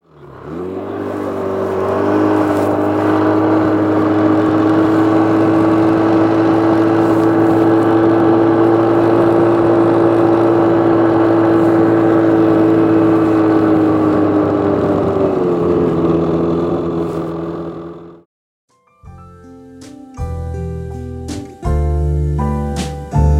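A vehicle engine drones steadily while driving back, a constant loud hum with a sustained tonal whine that cuts off abruptly before music begins.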